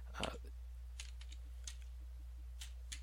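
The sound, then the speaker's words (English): Typing on a computer keyboard to enter a stock ticker: a few faint, irregular keystroke clicks, one slightly louder burst near the start, over a steady low hum. “I need to type in the correct ticker, so I'm rather failing to do that, so just bear with me for one moment.”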